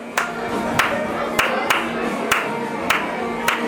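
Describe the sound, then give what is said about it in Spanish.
People clapping their hands together in a 7/8 rhythm: seven sharp claps fall in an uneven, asymmetric pattern over a steady low tone. “Empezamos a marcar un compás de 7/8 y la gente lo empezó a seguir tan natural como si 7/8 fuese lo así, cualquier cosa. Nuestros 4/4. Entonces, con las palmas, por supuesto, nosotros empezamos”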